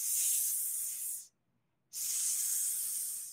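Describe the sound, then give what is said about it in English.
A voice imitates a snake's hiss: two long, steady, bright hisses of similar loudness, separated by a brief silent gap. “So those parents who are modeling words like the snake says,”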